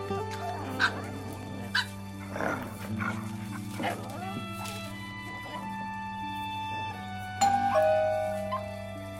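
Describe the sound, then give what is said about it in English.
Puppies play nearby with scattered short yips and soft whimpers, faint and intermittent beneath people talking and a steady background hum. “The puppies play nearby”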